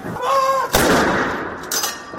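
Cannon salute fired during a royal military funeral inside Windsor Castle: a loud, sharp blast rolls away in a long, fading rumble, and a second blast starts near the end.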